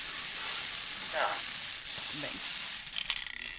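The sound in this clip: A lottery drum spinning with numbered balls, a steady rushing whirr throughout that breaks into rapid, uneven clattering rattles near the end.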